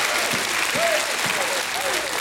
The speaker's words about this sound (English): Somebody give God a hand clap and a shout of praise.